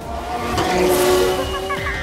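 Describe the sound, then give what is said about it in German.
Race cars in a cartoon race around the world drive fast as the drivers reach the jungle. A loud engine roar carries a steady tonal whine, with swelling passes and short sweeping bursts. “Das Rennen um die Welt war unterdessen in vollem Gange. Und die Fahrer erreichten nun den Dschungel.”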